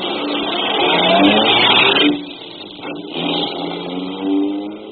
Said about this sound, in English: The lawyer drove me to my office